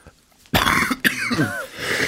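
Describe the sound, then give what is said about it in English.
Cough: two sudden, harsh coughing bursts about half a second apart. The second trails into rough, throaty noise, loud and alone without speech. “the classic cough excuse to get out of talking”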